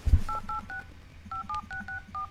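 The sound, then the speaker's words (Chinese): Keypad tones of a mobile phone number being dialed: eight short, clear electronic beeps in an uneven sequence, with a gap partway through. “王乾坤赶紧拨打了严福瑞的手机，拨完了号之后就搁耳朵边上一直听着”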